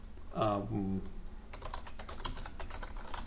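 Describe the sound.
Typing on a computer keyboard follows a short burst of speech, a rapid series of light plastic key clicks in an irregular rhythm, fairly quiet and continuing to the end.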